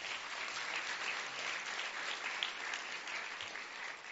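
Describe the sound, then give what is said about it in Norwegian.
Steady, dense applause greets the guest panellists at the start of a political debate. Many hands clap evenly at an unchanging level for the whole stretch, with no talk over it. “Gi dem en applaus.”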